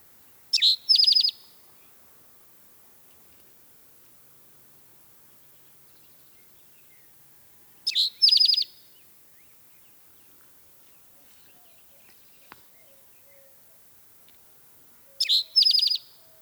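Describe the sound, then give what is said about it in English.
Spotted Towhee calls: three short, high, buzzy bird calls, each a quick double burst, separated by long stretches of near silence. “The calls of the Spotted Towhee can be variable, and recognizing their calls and songs can take some practice. But if you hear this,”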